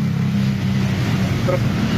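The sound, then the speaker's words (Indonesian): A box truck drives along a flooded stretch of Jalan Brigjen Sudiarto in Gayamsari, its engine giving a steady low rumble with a washing noise throughout, heard on its own. “mobil box yang nggak terlalu tinggi aja, segitu ya.”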